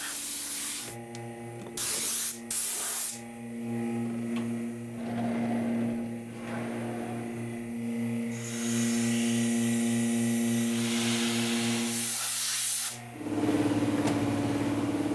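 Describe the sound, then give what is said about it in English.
Compressed air from a hose blows around vacuum-formed plastic to cool it: a continuous loud hiss that swells and dips, over a steady droning hum. “And then the last thing I do is I take that air hose around and around. It cools the plastic back down again so that it's rigid.”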